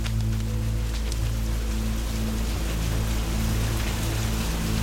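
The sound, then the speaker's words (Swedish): Heavy rain pours down in a dense, unbroken hiss, loud and steady throughout, with a low droning hum running beneath it. “Regnet tilltar plötsligt. Dropparna störtar ner från himlen och gör det omöjligt att se mer än det som finns precis framför näsan.”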